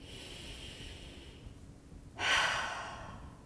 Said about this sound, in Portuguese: Para. Inspira. Expira lentamente.